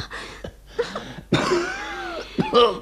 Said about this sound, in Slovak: Nedá mi dýchať. Kamaráti. Dusím sa.